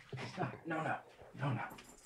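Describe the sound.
A dog making faint whimpering whines and soft yips, a few uneven high-pitched vocal bursts that rise and fade at low volume.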